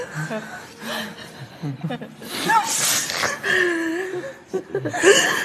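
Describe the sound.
A person cries at an emotional family reunion, finally found after decades apart. The sound is broken, wavering sobs and whimpers with gasping breaths, loud and uneven throughout.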